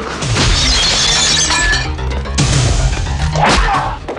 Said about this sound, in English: He leaps down and smashes their heads through a glass table.